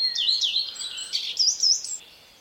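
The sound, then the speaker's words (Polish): A common redstart sings a brief, high, thin phrase of whistled notes and trills, its song mimicking a coal tit, clear against faint background noise. “Ile razy słucham śpiewu pleszki, to czekam z niecierpliwością na kolejną zwrotkę, a kogo tym razem tam będzie naśladować. Mamy na przykład sikorę sosnówkę na końcu.”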